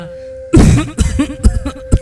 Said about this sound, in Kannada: ಏನೇ ಆಳದ ಕೆಮ್ಮು ನಿಲ್ತಾನೆ ಇಲ್ವಲ್ಲಪ್ಪ?